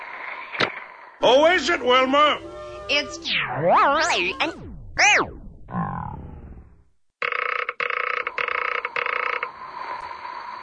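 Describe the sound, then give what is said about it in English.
Audio cassette being chewed up by a tape machine: music and a short spoken line warble and swoop wildly up and down in pitch, then break into a steadier, stuttering buzzing tone. “But it was a common occurrence for audio cassettes to be devoured or eaten by the tape machine itself. Such a consumption of a classic recording might sound something like this.”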